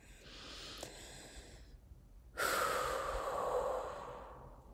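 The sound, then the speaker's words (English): A slow, deep breath drawn in silence: a soft, airy rush of air, a brief pause, then a louder, fuller whooshing breath that slowly fades, with no talking. “Number one, let's just take a breath together.”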